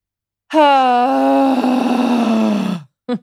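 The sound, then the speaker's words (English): A voice demonstrating a deep belly breath let out with a loud, drawn-out groaning sound that holds steady and then sinks slightly in pitch, followed by a brief second vocal burst. “So I would love for you to take 3 to 5 deep belly breaths. And I want you to let out sound when you do it. It's going to sound something like,”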